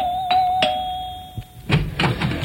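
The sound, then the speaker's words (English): A doorbell rings at a house door with a sustained, steady chime tone, then a few soft thumps and rustles follow once the ringing stops. “for just a dollar more, you can get him to ring doorbells at strange people's houses.”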